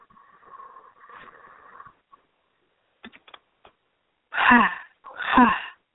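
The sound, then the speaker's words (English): Deliberate breathing exercise: two loud, breathy bursts, a forceful inhale followed quickly by an exhale, each about half a second long, coming after a stretch of quieter, faint sounds. “So it kind of sounds like this. Inhale. Exhale. Ha.”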